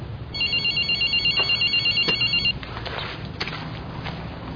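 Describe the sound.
Mobile phone ringtone: a rapid run of many short, bright pulses repeating evenly for about two seconds, then cutting off, leaving only faint rustling noise.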